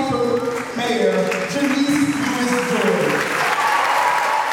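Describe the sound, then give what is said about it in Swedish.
Audience applause at a political citizens' meeting held in a church in Washington as a Democratic candidate arrives, with loud sustained clapping and cheering voices mixed in. “Janice Lewis-George är klädd i knallrosa kostym, och hon möts av applåder när hon vant greppar mikrofonen.”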